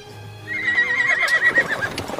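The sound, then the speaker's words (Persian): Horse-drawn carriages set off as a horse gives a long, high whinny that wavers and slowly trails off, over a soft, steady clip-clop of hooves. “کالسکه ها حرکت میکنه.”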